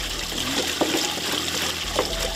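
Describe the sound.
Water trickles from drip irrigation watering seedlings in a village plot, a soft, steady flow with a few faint drips and splashes.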